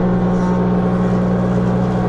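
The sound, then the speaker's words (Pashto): Woodworking machines cutting and levelling wood in a furniture workshop give a loud, steady motor drone with a strong low hum. There are no distinct cuts or pauses. “په دغه کارخونه کې نعمت الله سره نور لسو زیات کسان کار کوي. څوک په ماشینونو لرګي رکوي، څوک په همدې ماشینونو لوړې ژورې هواروي”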